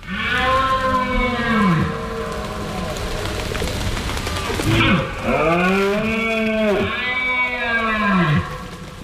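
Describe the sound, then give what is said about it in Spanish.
Red deer stags bellow in the hills during the autumn rut, with long, moaning, harmonic calls that rise and fall. Several calls overlap and carry loudly and continuously across the whole stretch. “habrá empezado a sonar en el monte el sonido de la berrea de los ciervos. Ese es el sonido de septiembre hasta bien entrado octubre.”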